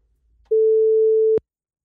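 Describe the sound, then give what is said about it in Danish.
A telephone call is placed to a listener: one steady, mid-pitched ringing tone lasts just under a second and ends in a sharp click, with near silence before and after. “Vi prøver at ringe til en lytter.”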